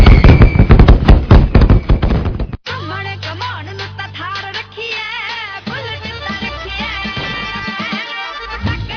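Diwali firecrackers going off in a loud, dense string of rapid crackling bangs for a couple of seconds, then cutting off abruptly as quieter sounds continue.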